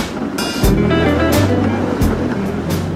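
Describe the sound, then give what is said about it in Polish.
A line 7 tram arrives with a steady low mechanical rumble and broad noise, and two heavier thumps stand out, one early and one just past two seconds. “Nadjeżdża siódemka, żegnamy się z Kubą, wsiadam.”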